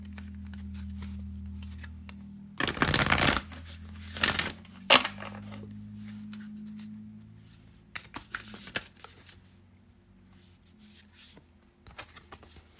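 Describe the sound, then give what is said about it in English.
Oracle cards being shuffled and drawn: a few brisk, papery riffling bursts separated by quiet pauses, with shorter flicks and soft card slaps later on. “Let's pull five cards for you.”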